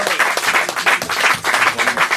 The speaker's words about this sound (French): On applaudit Thierry.